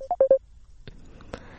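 Three short, loud telephone keypad beeps sound in quick succession as a caller places a call. Faint clicks and soft rustling follow in the quiet that comes after.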